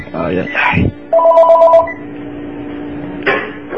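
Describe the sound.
A telephone rings from a repeated incoming call, giving one warbling electronic ring of under a second. People talk briefly before and after it.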